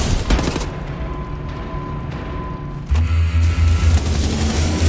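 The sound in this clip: Gunfire from enemy soldiers in the video game Wolfenstein: The New Order, dense rapid shots with bursts of loud cracks, joined midway by a low droning rumble that persists to the end.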